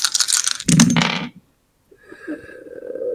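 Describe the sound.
Dice rolled during a tabletop roleplaying game rattle and clatter loudly for over a second, then stop.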